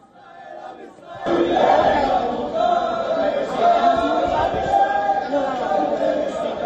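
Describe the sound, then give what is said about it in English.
A crowd at Ben-Gurion Airport cheers and shouts as it welcomes arriving passengers, waving flags and dancing. The roar swells suddenly after a quieter opening second and stays loud and continuous. “These are the images coming in from Israel's Ben-Gurion Airport, where Israelis and family members of passengers on board the flight can be seen welcoming their loved ones, waving Israeli flags and dancing in celebration.”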